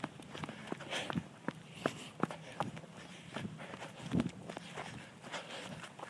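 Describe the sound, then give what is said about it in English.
Clumping footfalls of a person out on a run, many steady thuds in an even running rhythm, fairly faint against a soft background rush. “I wonder if you can hear a little bit more of the clump of my feet on this run.”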